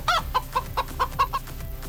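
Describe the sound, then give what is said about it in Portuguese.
A chicken on a small farm clucks in a quick run of short, sharp, evenly spaced calls, alone and moderately loud. “matar aquela galinha. Isso. A melhor que tá tendo pra gente comer no sítio dele.”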